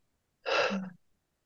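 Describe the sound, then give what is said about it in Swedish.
A single audible breath comes during a guided relaxation exercise, exhaled out through the mouth as a soft, breathy whoosh of about half a second, heard alone. “Ett andetag till in genom näsan. Och pusta ut genom munnen.”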